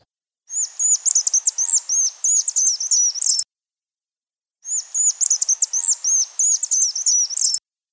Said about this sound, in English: It's a Vox's swift, or rather several of them flying and calling together, as it is rare to see one flying alone.